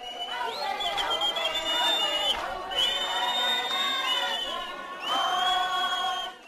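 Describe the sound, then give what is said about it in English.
Loud crowd cheering welcomes a politician arriving through a packed township hall at Mdeni Township south of Johannesburg, with shrill, sustained high-pitched cries riding over dense babble and brief dips before the cheering swells again. “A warm welcome to Dr. Zweli Mkhize as he made it through a packed hall at Mdeni Township south of Johannesburg.”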